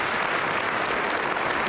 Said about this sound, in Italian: Applausi scroscianti, standing ovation per il Presidente della Repubblica Mattarella